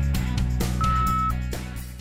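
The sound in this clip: A single steady high-pitched answering machine beep lasts about half a second, sounding over a loud, dense, continuous backdrop.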